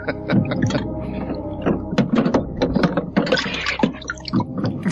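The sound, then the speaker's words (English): Wet splashing and sloshing as beer bottles are pulled from an ice cooler full of melted ice: many irregular watery clatters and splashes, steady and fairly loud throughout. “I'm getting more beers out of the ice cooler that was melted.”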